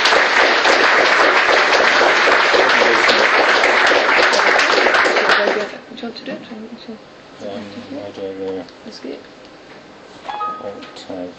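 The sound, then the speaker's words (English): Audience applause welcoming a speaker at an event in Glasgow: dense, steady clapping for about five seconds that stops abruptly, followed by quieter talk from people. “So let's give a good Glasgow welcome to Richard Wilkinson.”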